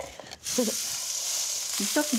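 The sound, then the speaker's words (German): Beef rouladen filled with bacon and onions sear in a hot pan, giving a steady, bright frying sizzle that holds at an even level, with brief bits of voice over it. “Ja, klingt gut. Und dann von allen Seiten scharf angebraten.”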